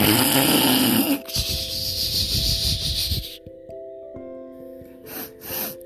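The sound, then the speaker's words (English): Sleeping animals breathing, a rough snore-like rush of breath in the first second, then softer, raspy breaths with snorting accents that continue steadily to the end. “Because they're so cute and they're sleeping and you want to hear their breathing.”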